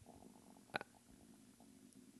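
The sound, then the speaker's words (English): A person's stomach rumbles once, a short faint gurgle with a quick double pulse, against low steady background noise. “I wonder if you can hear my stomach rumbling.”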